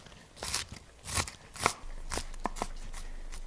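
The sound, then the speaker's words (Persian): A knife chops through three medium onions with sharp, crunchy cuts landing at an uneven pace, several distinct crisp strikes against a quiet background. “من 3 تا پیاز متوسط دارم که خوردش میکنم”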